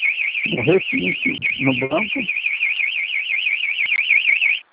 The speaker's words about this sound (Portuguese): Desculpa, é que disparou o alarme do carro.